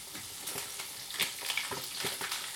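Sizzling of already-cooked Nuremberg bratwurst sausages browning in a pan: a steady hiss with scattered crackles and pops, no voices.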